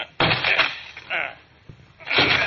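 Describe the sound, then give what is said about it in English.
Heavy blows against a locked door as men force it open, with a couple of sharp thuds cutting in among raised male voices. “Come on, let's break down the door.”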